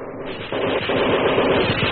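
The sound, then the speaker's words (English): Heavy Japanese machine gun fire crackles in a rapid, continuous stream of muffled shots. The sound is dense and steady, with no pauses over the short stretch. “So heavy was the Japanese machine gun fire that it seemed that no man could penetrate to where the enemy lay in the shadows.”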